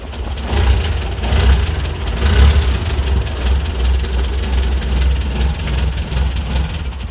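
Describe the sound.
Engine of a Russian GAZ 69 jeep accelerating suddenly, a deep rumbling engine note that swells and eases in several surges and stays loud throughout.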